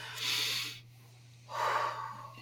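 A deep breath taken alone: two fairly quiet, breathy rushes of air separated by a short pause.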